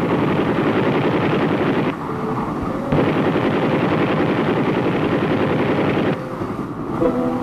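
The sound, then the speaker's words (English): A CH-47, a big, rugged troop transport and cargo helicopter, flies past on a mission. Its heavy, rhythmic rotor thudding forms a loud, continuous drone that briefly dips twice before surging back. “Homeward bound, we passed a CH-47 out on a mission.”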